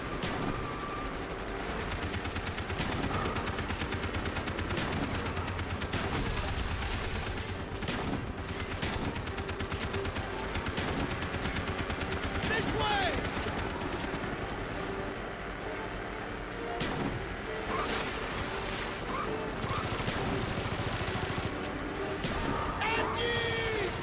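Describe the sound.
Gunfire rings out in a video game shootout during a chase sequence. Many rapid, sharp shots crackle over a dense, continuous roar of noise.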